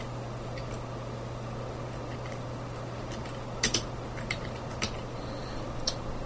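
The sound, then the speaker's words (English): Faint keystrokes on a computer keyboard, a few light, scattered clicks spaced irregularly over a steady low hum, with no voices. “And I'm going to type in something like Star Wars and see what they've got for Star Wars.”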